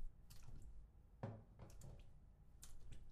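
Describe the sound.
Water splashing as a person's feet are washed, right foot first: a few faint, wet splashes and squishes over a low murmur.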